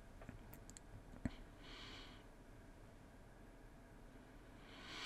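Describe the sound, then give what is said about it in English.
A single sharp mouse click on a link in a WordPress admin page, enabling automatic updates, stands out as one brief, faint tick over a quiet background hiss, with no talking. “So let's go ahead and click on that link.”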